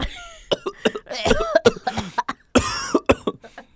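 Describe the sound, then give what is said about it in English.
Repeated coughing from a teacher in a classroom, with many harsh, raspy bursts in irregular clusters, some short and some drawn out, separated by brief pauses. “and then the teacher starts coughing.”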